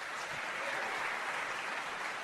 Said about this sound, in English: I think the applause meter jumped really high on that one.